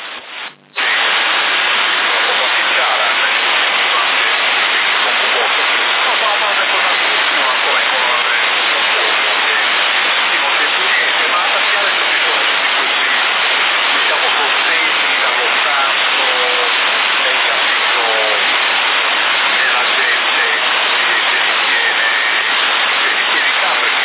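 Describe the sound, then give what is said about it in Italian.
Water runs steadily in a bathroom as olives are rinsed, a loud, unbroken rushing hiss that continues without pause. “mi stavo alzando adesso per andare in bagno a sciacquare le olive.”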